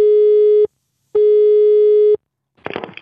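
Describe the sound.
A telephone busy signal plays after the receiver is picked up: two steady, loud, low electronic tones separated by a short silence, followed by a brief rustling noise.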